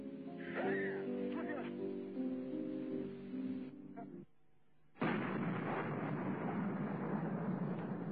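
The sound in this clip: Gunfire in combat, heard through radio traffic: a voice over the radio comes first, then a sustained, dense burst of rough crackling noise fills the last few seconds, all fairly faint.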